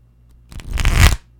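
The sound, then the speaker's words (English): Tarot cards being shuffled in one quick riffle that builds to a crisp, papery flutter and stops abruptly, brief and alone against near silence. “Little tarot card ASMR, which is always lovely.”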